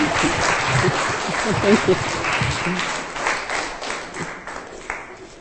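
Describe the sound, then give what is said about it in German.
An audience at a religious gathering applauds to welcome two guests. The clapping is steady and full, with some voices mixed in, and it slowly tapers off toward the end. “Gib mal Applaus”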